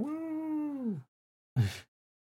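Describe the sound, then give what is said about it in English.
A cat meows twice: a long, drawn-out call whose pitch sags at the end, then after a short silence a brief, brighter mew. Both cries stand alone, with no talking. “I've got a feline listener.”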